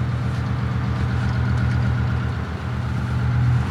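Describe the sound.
A 70-year-old barge engine running, which starts without a choke. It gives a loud, steady low throb with an even pulsing rhythm and no break.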